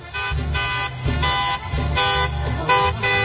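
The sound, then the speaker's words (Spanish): A party bus horn honks at a street celebration for a quinceañero. It plays a loud, continuous run of brassy tones that shift in pitch like a short repeating melody. “qué escándalo tenemos aquí en Ruiz Cortines. Pita.”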